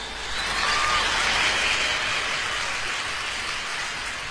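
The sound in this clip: Audience applause for the music director at a live show: a dense, hissing roar of many clapping hands that swells in within the first half second and holds steady to the end.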